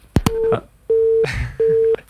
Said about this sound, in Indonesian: Oh, mungkin gangguan dari HP-nya mungkin ya, apa ya, iya, dari penelpon iya, kali ya. Oke deh. Sudah 3 kali baru masuk udah mati lagi nih.